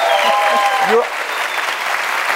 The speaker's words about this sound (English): Please put your hands together. Welcome.